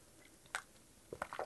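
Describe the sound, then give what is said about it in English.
Quiet sipping of coffee: a brief wet slurp, then a short cluster of soft sipping noises close together, with no talk. “Just a bit of a sip of the coffee.”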